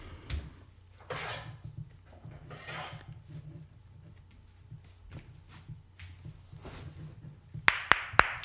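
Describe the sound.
Castanets are fetched amid soft shuffling and rummaging, like objects and drawers being moved, then three sharp, bright clacks ring out close together at the very end.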